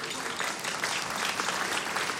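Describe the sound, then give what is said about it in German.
An audience at a live comedy show breaks into applause, a dense, even patter of many hands clapping steadily throughout without a pause. “Sie müssen jetzt nicht jedes Mal klatschen, wenn Sie was verstanden haben.”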